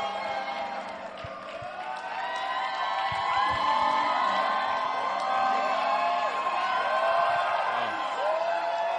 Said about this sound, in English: Put your hands together for a powerful testimony.